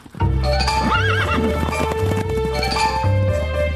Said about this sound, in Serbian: Onda konji galopiraju do topova, konjaci zarobe topđije, izvade ih napolje i slave pobedu.